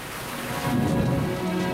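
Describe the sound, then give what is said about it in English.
Rain dribbles outside a barracks window and leaks onto the windowsill, making a soft, steady hiss of fine drops with a slight swell partway through and no voices. “Rain dribbles outside the window of the barracks and leaks onto the windowsill.”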